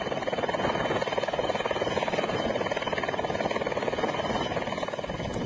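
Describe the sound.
Loud, steady rotor chop and engine whine of a rescue helicopter flying aid to snowbound villages, a fast, even beating of blades running without a break through the whole stretch.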